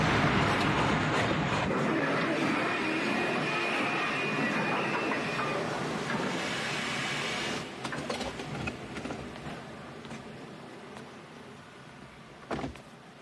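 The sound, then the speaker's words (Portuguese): A train rumbles along in a dense, continuous wash of rolling noise with a faint high whine partway through. The sound then thins out into looser rattles and a few sharper clanks near the end. “Parem o trem! Desculpe-me. Ele está aqui! Parem o trem! Parem o trem!”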